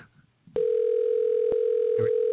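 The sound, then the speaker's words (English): Telephone line during dialing: a sharp click, then a steady single-pitched dial tone that holds loud and unbroken to the end, crossed by a couple of brief clicks. “Actually, I'm dialing right now.”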